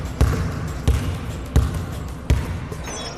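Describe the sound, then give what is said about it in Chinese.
A basketball dribbled with the fingers in a training drill: four solid bounces at a steady, even rhythm, each a sharp low thump with no talk. “刚才你的运球整体来说都很棒啊，但是有几个问题啊”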